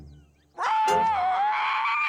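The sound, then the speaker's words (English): Someone screams: a single loud, high, voiced cry breaks in abruptly, dips slightly in pitch and holds steady for over a second. “Somebody screamed!”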